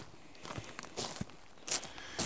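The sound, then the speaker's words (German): Footsteps on a walk through a forest at the foot of a mountain peak: a few faint, soft crunching steps at an uneven pace, some slightly louder than others. “Beim Spaziergang am Fuß des Signal Peaks zeigt er auf eine Pfütze.”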